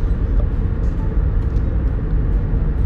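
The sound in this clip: Road noise inside a car being driven, a steady low rumble with a faint hiss above it, continuous and even throughout.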